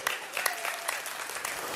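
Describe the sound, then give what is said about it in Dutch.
Applause from an audience, with many hands clapping in a dense, steady patter through a short burst. “applaus voor onze hemelse vader”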